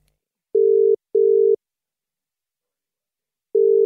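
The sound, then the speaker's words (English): A telephone tone on an outgoing call: two steady, mid-pitched tone bursts close together, a long silent pause, then a third burst begins, clean and electronic with nothing else heard. “Now is the perfect time to call her before her baby needs to be fed. So I will dial her in now.”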